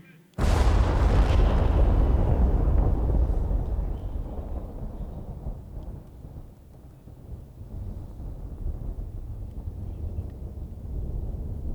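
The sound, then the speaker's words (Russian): A hand grenade held close to the chest explodes in wartime, bursting out of near silence with one sudden, loud blast that becomes a long, deep, rumbling roar and slowly subsides over several seconds. “В левую руку гранату, ближе к груди. Выдернул чеку. Раз, два, три.”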